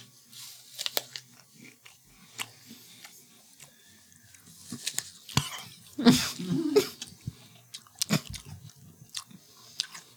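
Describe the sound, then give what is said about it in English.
Crisp crunching bites and chewing of a sweet apple with its seeds cut out, irregular crunches scattered throughout and the loudest burst near the middle, with soft mouth noises between. “So you're eating a regular apple? Okay. It is like eating a regular apple.”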